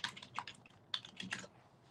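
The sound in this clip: Fingers type a web search on a computer keyboard, a quick, irregular run of faint clicking keystrokes in small bursts with brief pauses between.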